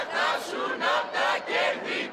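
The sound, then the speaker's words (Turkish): A crowd of protesters at a May Day march toward parliament chants freedom slogans for Palestine. Loud shouted phrases repeat in a steady rhythm, each burst separated by a short gap. “Eylemciler Filistin'e özgürlük sloganları attı.”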